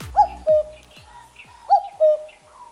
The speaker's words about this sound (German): Das ist der Kuckuck.